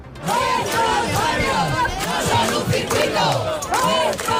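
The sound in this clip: Residents chanting at a neighbourhood protest rally in Madrid against a racing circuit: a loud crowd shouting slogans in unison, with rhythmic, repeated calls and overlapping voices throughout.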